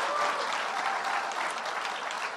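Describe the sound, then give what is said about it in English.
A crowd applauding during a college graduate's speech at their alma mater, a thick, even rush of clapping that stays strong and unbroken for just over two seconds with no speech on top. “clap on that”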